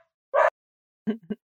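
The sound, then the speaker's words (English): A dog barks in short, sharp bursts, one bark followed after a pause by a couple of quick barks. The barks are fairly faint, with no talking over them. “That's my dog.”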